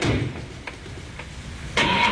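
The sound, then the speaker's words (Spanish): A car engine is started at about eight in the morning, giving a rough, low cranking rumble with a few faint clicks before a louder, broader burst of noise near the end. “Casi las 8 de la mañana, tal vez arrancando. No está tan fresco como para que el motor no arranque. Ahí está.”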